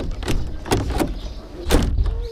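A door being opened, with a few sharp clicks and thuds from the handle and frame in a short, uneven sequence.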